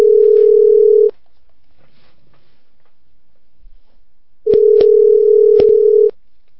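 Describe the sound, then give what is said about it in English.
A steady telephone dial tone sounds for about a second and then stops. It returns a few seconds later with a couple of sharp dialing clicks over it before cutting off. “Let's see what we can do right now. Dialing Silent Spick.”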